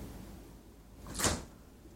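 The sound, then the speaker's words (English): A refrigerator door opening in a kitchen: one brief, soft, airy burst rises out of a quiet hiss and fades quickly. “So, I'm going to open up the refrigerator,”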